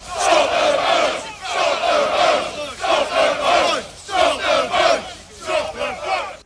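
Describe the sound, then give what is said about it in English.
Hundreds of protesters, dressed in black with covered faces and blocking roads around the port of Dover, chant loudly in repeated rhythmic bursts of massed voices, swelling and dipping with each phrase. “That was the sound of hundreds of protesters dressed all in black with their faces covered who arrived in Dover earlier this morning and blocked roads around the port.”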